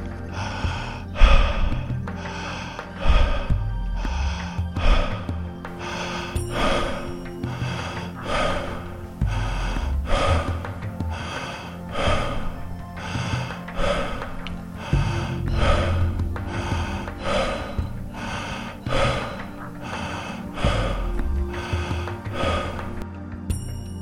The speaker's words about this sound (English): Continuing to breathe in through the mouth, out through the mouth.